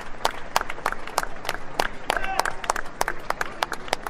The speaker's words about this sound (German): Applaus